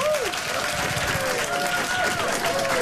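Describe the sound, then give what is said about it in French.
An audience applauds two guests at a live children's show, with steady, dense clapping that fills the whole stretch at an even loudness. “de Romane Fraissinet et de Luc Langevin, nos deux invités, que l'on peut applaudir.”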